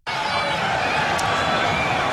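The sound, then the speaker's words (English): A sports crowd roars as fans join the players in a seated rowing celebration. The sound is a dense, loud, continuous wash of many voices, steady throughout with no distinct claps or chants standing out. “And the crowd row along with them. It's the best celebration and sport, interaction between the players and the crowd. Here's a bit of audio of it.”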